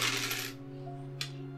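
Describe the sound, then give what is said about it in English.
A dark rune die rolled on a table during a board game, a bright, rattling clatter for about half a second, then a quiet pause and a single short click as it comes to rest. “I'm gonna spend an experience to roll a dark rune”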